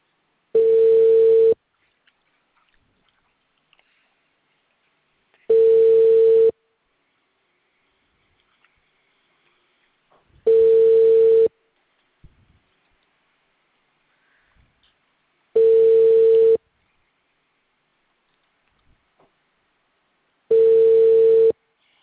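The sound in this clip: A telephone ringback tone sounds while calling someone. Five even, mid-pitched beeps of about a second each repeat at regular intervals, separated by long stretches of near silence.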